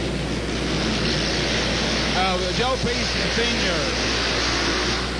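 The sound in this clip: Hot rod lawnmowers roar during a night race lap, a steady, loud, droning engine noise that holds throughout, with a voice briefly heard over it.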